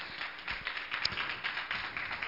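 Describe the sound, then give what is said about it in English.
Faint hand clapping from a church audience giving praise, a quiet patter of claps with a few sharper hits. “Give Jesus one more hand clap of praise, if you would.”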